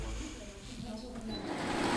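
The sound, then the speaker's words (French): Sewing machines whirr steadily in an upstairs volunteer costume workshop where about ten seamstresses work among thread and fabric, a continuous mechanical buzz under talking. “Dans une salle à l'étage, une dizaine de couturières bénévoles sont entourées de fils, tissus et machines à coudre. Ça discute, ça travaille, ça vit.”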